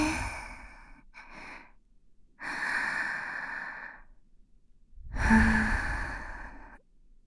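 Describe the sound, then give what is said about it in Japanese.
Slow, deliberate breathing in and out, heard as a few long, airy breaths and sighs separated by short pauses, with no talk over them. “吸って、吐いて。”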